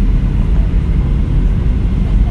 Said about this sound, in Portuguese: E a gente está quase pousando.